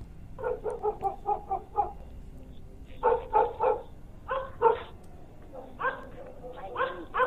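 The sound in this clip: A dog barks wildly in rapid bursts of many sharp, harsh barks, with brief pauses between the clusters and the barking staying loud throughout.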